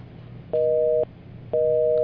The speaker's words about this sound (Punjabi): ਇਹਨੇ ਲੈਣ ਕੱਟ ਗਈ